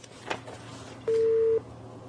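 A single steady beep of a telephone busy tone as a call is cut off. The mid-pitched tone lasts about half a second and stands alone over faint line hiss.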